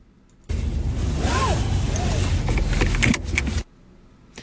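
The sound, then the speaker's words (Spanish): A car seat belt is pulled out and retracted with a smooth mechanical whirring that lasts a few seconds, ending with a quick sharp click before falling quiet. “El cinturón del carro”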